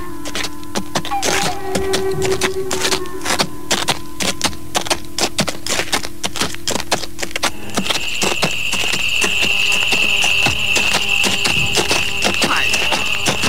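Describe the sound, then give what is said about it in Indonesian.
Hoofbeats of horses on a road: a steady run of many sharp clopping strikes, with no voices. “Langkah-langkah kaki-kaki kuda yang terdengar sayup-sayup itu mulai terdengar mendekati tempat itu”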